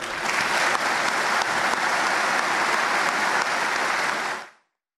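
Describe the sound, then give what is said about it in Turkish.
An audience in a hall applauds veterans' families at a Veterans' Day ceremony. The clapping is dense, loud and even, holds steady throughout, then fades out quickly just before the end. “Şimdi hep birlikte bu tarihi mücadelenin sessiz kahramanları olan ailelerimizi en güçlü şekilde alkışlayalım lütfen.”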